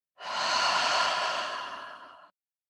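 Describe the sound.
A single long, audible breath in a guided breathing exercise, soft and airy. It swells quickly, holds steady for about two seconds, then tapers off and stops abruptly, with silence on either side.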